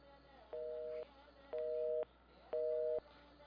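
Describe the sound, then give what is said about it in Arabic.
A telephone busy tone sounds after a phone-in call line drops: three evenly spaced, steady mid-pitched beeps, each about half a second long, separated by short gaps. “طولنا على نورة وانقطع الخط مع نورة”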